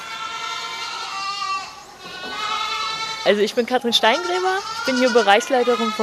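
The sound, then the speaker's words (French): Goat kids a few weeks old bleat in a barn on a dairy goat farm. Many overlapping wavering cries, one sustained bleat early on, then a louder cluster of warbling, quavering bleats in the second half. “Nous allons dans une autre étable où les chevreaux ont déjà quelques semaines. Ils aiment bien avoir de la visite.”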